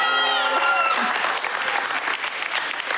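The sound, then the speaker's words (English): A church audience applauds as the pastor's wife joins him on stage. Dense, steady clapping runs throughout, and a held musical tone fades out in the first second. “How about a hand for my wife as she joins me one more time?”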